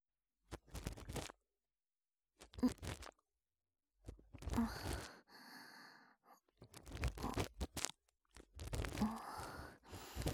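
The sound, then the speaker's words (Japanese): Ear cleaning as earwax is scraped from the shallow part of the ear, with several close bursts of crackly, crunchy scratching separated by silences and a softer rustling stretch in the middle. “まずは、浅いところに見えている耳垢から書き出してまいります。”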